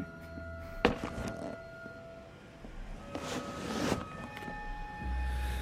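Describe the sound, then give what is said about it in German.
A bag is set down on a desk in a police station with one dull thunk, followed by soft rustling and shuffling over a low steady hum. “Warum stellen Sie Ihre Tasche nicht einfach auf den Schreibtisch?”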